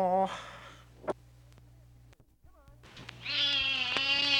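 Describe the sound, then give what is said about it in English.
A domestic cat meows: a short meow at the start, a faint brief one in the middle, then a long, loud, drawn-out meow to finish. “Ow, bloody feline. Oh, excuse me, just playing with my cat.”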